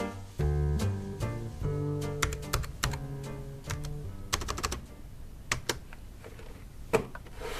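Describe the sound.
Typing an email on a computer keyboard, with many quick, crisp keystrokes in uneven bursts and short pauses, fairly faint.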